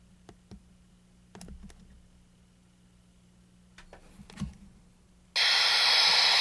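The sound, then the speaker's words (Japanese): Mode switch pressed on a portable radio: a few faint, sharp button clicks over a low hum, then a sudden burst of loud hissing static that runs to the end. “次にモード切り替えスイッチを押しますと、”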